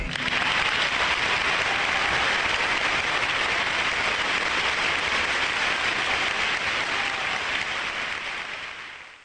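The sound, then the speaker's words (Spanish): An audience applauding an interviewee on a talk program: dense, even clapping that holds steady for about nine seconds before tapering off at the end. “Fue tan hermoso lo que dijiste que vamos a inaugurar una nueva sección del programa, que es aplaudir al entrevistado.”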